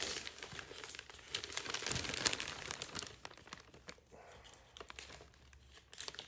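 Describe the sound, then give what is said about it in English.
Wrapping paper crinkles and rustles as a Christmas gift is wrapped, a faint, irregular stream of crackles and crumples that swells in the middle and then thins out. “That could have been worse than the way how I'm wrapping this right now.”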